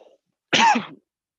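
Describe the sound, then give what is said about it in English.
A single short, harsh cough clears something caught in the throat, one rough burst heard alone against silence. “Wow, I have something in my throat.”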